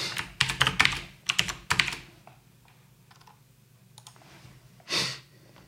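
Typing on a computer keyboard while comments are written: quick bursts of crisp key clicks come first, then they thin out into scattered, fainter taps, with one soft rushing burst near the end.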